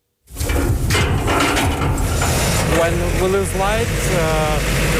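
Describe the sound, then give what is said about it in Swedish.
A large backup generator in the yard of a Kyiv apartment building starts automatically during a power cut. It kicks in abruptly and settles into a loud, steady engine drone, with a voice talking over it. “När eltillförseln till höghuset i Kiev bryts startar den stora generatorn på gården automatiskt.”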